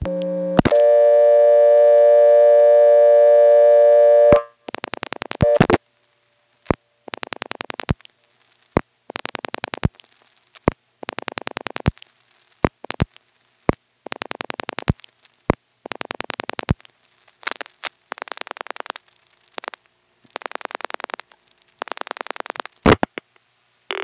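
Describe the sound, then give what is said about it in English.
Telephone supervision test tones in the Goldston exchange, dialed normally: a steady tone, then many short buzzy tone bursts in uneven groups, broken by sharp clicks and brief gaps. “Now here's the supervision test in Goldston, dialed normally.”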